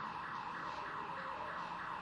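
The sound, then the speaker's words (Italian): Alarms go off during a power cut, a faint electronic wail that rises and falls in a steady repeating cycle, with no voices. “sono un po' gli allarmi che saltano, perché quando manca la corrente potrebbero essere i ladri”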